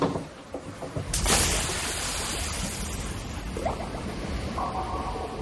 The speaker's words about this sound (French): Oui, ça c'est un bruit de piscine qu'on a emprunté à un documentaire sur le peintre Hockney.